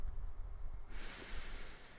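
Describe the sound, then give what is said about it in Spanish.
A calming deep breath: low, soft breathing at first, then a long, hissing rush of air that continues to the end. “Vamos a respirar hondo, ¿vale? Necesito que. Creo que lo necesitamos. Yo creo que tú también lo necesitas. Yo lo necesito. Cojamos aires.”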